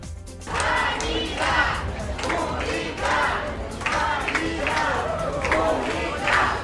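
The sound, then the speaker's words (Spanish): Crowd of hospital workers at a Madrid hospital shouting as the regional president arrives. The shouting is loud and continuous, rising in repeated, roughly rhythmic bursts. “Decenas de trabajadoras, de trabajadores del Hospital Ramón y Cajal han recibido así a la presidenta Isabel Díaz Ayuso a su llegada al centro.”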